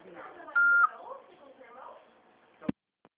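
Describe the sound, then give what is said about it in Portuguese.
A voicemail beep signals the start of a message: one short, high electronic tone sounds over a talking voice, followed by a sharp click. “Após o sinal, alô? Fale o seu nome e deixe o seu recado.”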